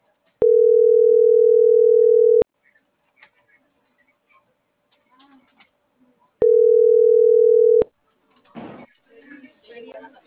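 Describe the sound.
A telephone ringback tone after dialing sounds as two long, steady, mid-pitched beeps, each about two seconds, separated by a few seconds of near silence. A person then speaks briefly.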